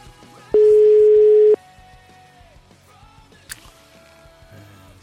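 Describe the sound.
A single steady ringing tone of an outgoing telephone call, lasting about one second, sounds at mid pitch over a quiet, cluttered background.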